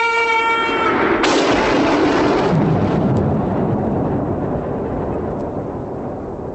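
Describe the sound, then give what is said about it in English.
A crude TV special effect of a man exploding: a brief tonal hum gives way to a loud, broad rumbling roar that slowly thins and fades. “He explodes, and it's so funny because this probably takes our prize for the worst special effect.”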